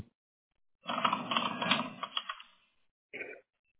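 Typing on a computer keyboard set to Japanese: a brisk, dense clatter of keystrokes goes on for nearly two seconds, then a short burst of keys follows after a pause.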